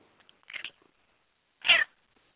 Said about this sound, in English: you might have just heard a mouse noise. That wasn't no mouse. In fact, that was the animal that eats mice.